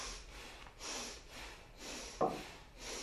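Forceful bhastrika bellows breathing in a yoga breathing practice: rapid, rhythmic, hissing breaths pumped in and out at an even pace, steady in loudness throughout.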